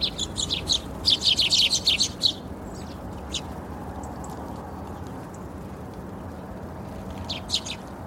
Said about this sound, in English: These little birds are doing fast laps. They fly up, balance on the perch, grab some seeds, straight back down again.